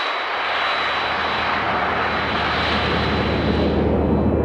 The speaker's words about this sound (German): Und die Luft macht 2 verschiedene Geräusche. Das Pfeifen. Hey! Da! Das entsteht beim Einströmen in die Düse.